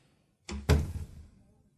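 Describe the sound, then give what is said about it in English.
A door closes with a dull, low thump: a softer knock comes first, then a heavier thud that dies away within about a second. “She walked to the door.”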